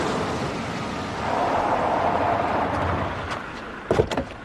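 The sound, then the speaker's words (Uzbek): A car approaching along a road and stopping, heard as a broad, steady rumble that swells and holds, then eases, with a few short clunks near the end. “Ana, yana mashina. Voy, balki shu olib ketar.”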